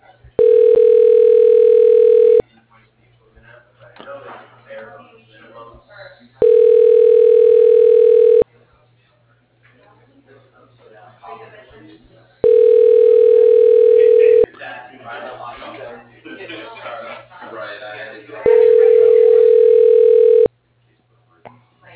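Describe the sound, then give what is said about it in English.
Telephone ringback tone after an office extension is dialed: four evenly spaced, long, steady ring tones, with quieter voices heard in the gaps between them. “Dialing Todd Harvey. Extension 201.”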